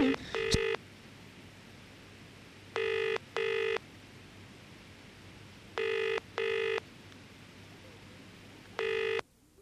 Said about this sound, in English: So I'm going to ring up Sovereign Chemical Industries Limited.